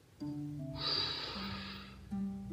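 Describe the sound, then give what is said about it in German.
A long, deep breath during a guided meditation, heard as a soft airy rush of breathing that swells and fades over gentle sustained musical tones. “Und das mache ich immer am liebsten, indem wir jetzt gemeinsam fünf ganz tiefe Atemzüge nehmen.”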